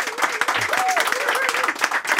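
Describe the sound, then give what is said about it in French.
Applause from a talk show's audience fills the whole clip with dense, steady clapping while a voice speaks over it. “Une bonne main d'applaudissements, oui.”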